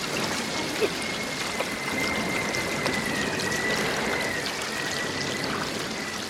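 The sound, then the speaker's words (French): Rushing water of a waterfall churns steadily, a moderately faint wash of splashing and pouring with a thin, steady high tone running through it. “Mortimer tente encore de remonter le courant, mais il est entraîné par la chute d'eau.”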